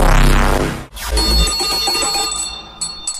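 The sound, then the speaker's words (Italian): A bell rings with a bright metallic strike and sustained overtones that slowly fade, followed by a few short, high chimes near the end. “Sali in sella, è suonata la campanella.”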